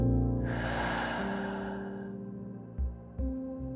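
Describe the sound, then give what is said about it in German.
A deep breath in a guided relaxation exercise, taken through the nose and let out through the mouth. A long, airy rush lasts nearly two seconds, then come two short breathy puffs over a steady sustained tonal background. “Schließe deine Augen, atme tief durch deine Nase ein und durch deinen Mund wieder aus.”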